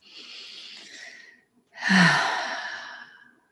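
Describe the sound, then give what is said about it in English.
Two deep meditative breaths: a soft, airy inhale, a brief pause, then a louder, longer sighing exhale that gently trails off. “take a breath, and another breath.”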